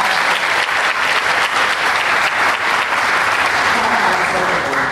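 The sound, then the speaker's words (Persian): Applause for people being honoured: dense, steady clapping that holds at an even loudness for the whole five seconds, with a broad, hissy texture. “به افتخارشون دست بزنی”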